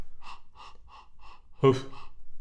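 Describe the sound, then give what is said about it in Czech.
A person's voice imitates the panting of a big dog, a Saint Bernard, with several even, breathy puffs followed by a louder, deeper, rougher huff and one more soft puff. “Pak máme psí dech. Ano, rychleji, pomalu a pak štěchat. Nejdřív jako malý pejsek a pak jako velký pejsek, Bernardín.”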